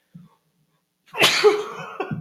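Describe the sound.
A single loud sneeze bursts out sharply and trails into a breathy, tonal tail, preceded by a faint brief sound.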